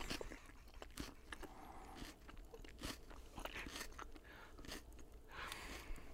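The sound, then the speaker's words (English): Crunching on a pizzeria salad: many soft, crisp bites and chewing sounds come in an irregular run, quiet and close, with no talk. “This is a Pagliacci salad from Pagliacci Pizza in my mouth.”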